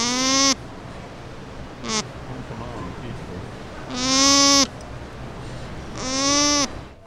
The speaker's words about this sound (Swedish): För när jag har 600 av Storbritanniens mest prestigefulla alpackor omkring mig